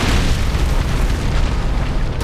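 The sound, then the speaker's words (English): Deep, continuous rumbling boom of a mountain exploding, a loud, dense roar that holds steady throughout with no pauses and no voices. “It sounded like the mountain was exploding.”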